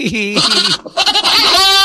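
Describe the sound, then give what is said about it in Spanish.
Goats bleat loudly in two long, wavering, nasal calls with a short pause between them. The second call holds a steadier, higher tone toward its end. “¡Despertaron las cabras!”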